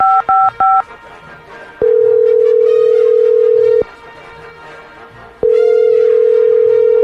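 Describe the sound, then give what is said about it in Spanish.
Telephone keypad tones, three short beeps as a call is dialed, are followed by two long, loud ringing tones with a quiet pause between them. “Ahí está marcando, ahí está marcando, ahí está marcando.”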